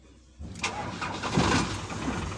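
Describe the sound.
A car engine starts after a long time parked up, on a car whose gearboxes had been blown. Near-silence gives way to cranking, then the engine catches quickly and settles into a loud, steady, rough running rumble.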